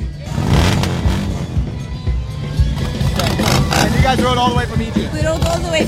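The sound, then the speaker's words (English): Harley-Davidson motorcycles rumble along together on a group tour of 17 riders, on a 1,000-mile ride from Egypt to Beirut, Lebanon. A dense, continuous engine roar stays loud throughout, with rising and falling revs layered on top. “She's one of 17 riders who made the 1,000-mile trip from Egypt to Beirut for this, the first official Harley tour of Lebanon.”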